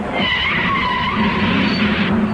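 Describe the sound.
Tires screech as a car brakes hard and skids, a loud, continuous rubbery squeal that runs unbroken for the full two-odd seconds with no voices.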